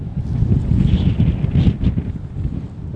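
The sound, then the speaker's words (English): Strong wind blows across barren land with tall, dry grass, a loud, continuous buffeting roar with rumbling gusts and no other clear sounds. “And there's wind, a lot of wind.”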